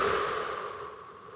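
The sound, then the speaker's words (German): Air drawn in through the nose during a calming breathing exercise, a single steady, airy hiss that slowly fades with no talking. “empfehle ich, einmal durch die Nase einzuatmen, nochmal kurz nachziehen, durch die Nase”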